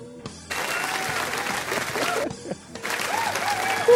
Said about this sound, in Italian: applausi. Sento le reazioni entusiaste del pubblico.